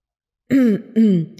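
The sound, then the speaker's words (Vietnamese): A dry cough made of two harsh throat clears, each a short, voiced, gravelly burst lasting about a quarter second, separated by a brief pause, with no talking around them. “ho khan hai tiếng.”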